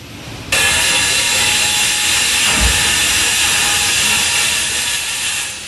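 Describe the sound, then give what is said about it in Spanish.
Construction work noise in the city streets of Murcia in summer: a loud, steady hissing machine roar that starts abruptly and holds for several seconds, with a low thump partway through. “Lo conocen bien, están por todos lados, en cualquier vía, callejón o esquina, son obras.”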